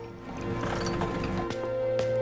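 Riders' horses at stables, with a few hoof clops and shuffles over a steady low hum.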